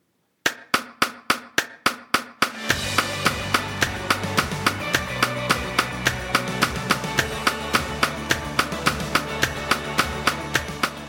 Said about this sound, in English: This is an example of what a click track sounds like, what they're hearing in their ears, over top of one of the songs that we sang this morning.